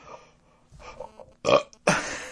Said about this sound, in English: It feels like a good burp coming up, and they come up small.